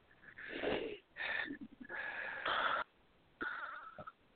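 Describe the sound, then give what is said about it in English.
Soft, deep breathing in and out by a person during a guided spiritual reading, a few long airy breaths with a slight wheezy edge, quiet and thin in tone, with short pauses between them. “take a big breath in and out”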